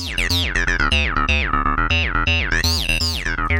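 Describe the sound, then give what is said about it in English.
A late-90s, early-2000s style soft synth plays a quick run of bright, buzzy notes as its pitch and wavetable shape are changed, each tone gliding and bending up and down in a lively, jumpy sequence. “They're smacking a pitch up. They're changing the wavetable shape, I guess that is.”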